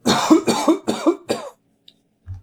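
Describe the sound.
Coughing and throat clearing from a dry throat: four loud, harsh coughs in quick succession, then a pause, a tiny click and a brief low throat-clearing sound.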